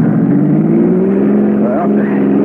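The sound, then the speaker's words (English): A car engine accelerates hard as the driver is urged to give it the gas, pulling away in front of a police station. The loud, continuous drone climbs slowly in pitch across the whole stretch. “Go on, give it the gas.”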